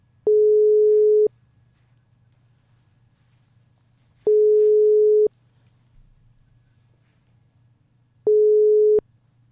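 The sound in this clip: Ringback tone of an outgoing telephone call ringing through on the line: three long, steady, identical tones separated by evenly spaced silent gaps, with a faint low hum in between.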